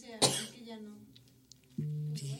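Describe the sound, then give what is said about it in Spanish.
One short, sharp cough bursts out at the start, followed by a stretch of quiet and then a brief voiced sound. “Sí, ya me dio tos.”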